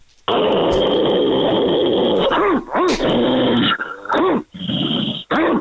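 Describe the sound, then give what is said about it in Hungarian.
Loud, sustained growling and snarling from an aggressive dog being urged to attack near a fence, running almost unbroken for several seconds with a few short breaks toward the end. “hozd a dogot. Hogy válaszol erre a dog?”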